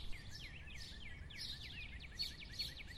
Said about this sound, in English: Listen to those birds right now.